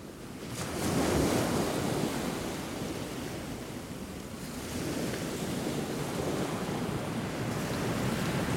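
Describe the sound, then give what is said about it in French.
A rushing, surf-like wash like sea waves rolling toward buildings. The broad, steady noise swells early, eases slightly, then builds again and holds to the end. “C'est aussi un peu la mer, on dirait la mer qui s'approche. Hein. Qui s'approche des bâtiments.”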